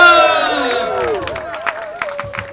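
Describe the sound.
A crowd cheers at the festive unveiling of a bicycle bridge in Amsterdam: a loud shouted cheer opens, then gives way to scattered claps and murmuring voices.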